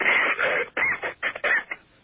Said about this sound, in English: Boy, that's nasty. Nasty cough.